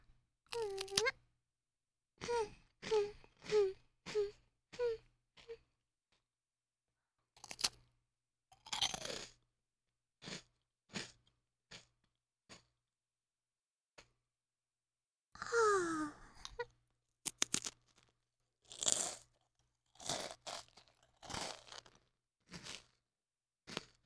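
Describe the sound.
Someone chews and crunches biscuits in many short, crisp bursts separated by pauses. Voiced murmurs and sighs of enjoyment come between some of the bites.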